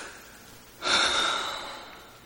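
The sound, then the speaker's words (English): A heavy, breathy gasp opens a rock ballad. It swells suddenly into one long airy breath and slowly fades, with no music yet. “Start with some heavy breathing, always good.”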